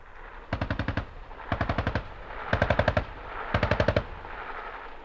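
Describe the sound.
Medium machine gun firing at a checkpoint during a military exercise, in four loud, evenly spaced bursts of several rapid rounds each, with no voices.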